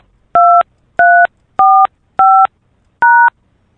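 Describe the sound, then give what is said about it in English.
Telephone keypad DTMF tones entering a voicemail password: five short, evenly spaced two-pitch beeps, loud and clear, with silence between them. “Please enter the password you have chosen, then press pound.”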